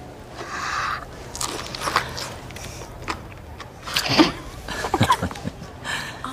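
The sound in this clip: Someone bites into and chews food with a peel, making a string of irregular crunchy bites and chewing bursts that grow louder and denser toward the end.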